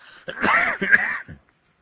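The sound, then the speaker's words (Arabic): A male lecturer coughs and clears his throat in one rough, raspy burst lasting about a second, then falls silent. “معلش أنا يعني جو القاهرة يبدو فيه أتربة وكده، يعني أستميحكم عذرا في كثرة السعال.”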